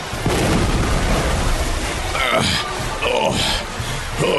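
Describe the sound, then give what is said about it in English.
A weapon blast hitting a force field, an electrical jolt heard as a loud, sustained crackling roar of dense noise with a rumbling low end. It persists through the whole clip, and brief tonal flickers cut through it midway. “Can't take another hit like that. Even though my force field held, I'm still somewhat depleted after that massive electrical jolt that he sent me.”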